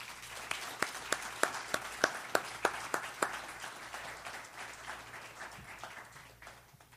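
Clapping from a church audience welcoming a pastor, opening with about ten sharp, evenly spaced claps in a quick rhythm, then thinning into softer, scattered clapping that fades away.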